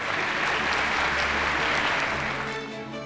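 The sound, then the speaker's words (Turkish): Audience applause at an award ceremony as the winners are invited onto the stage: sustained, dense clapping from many people that stays strong and then tapers off slightly toward the end. “Alkışlarımızla kendilerini sahneye davet ediyoruz.”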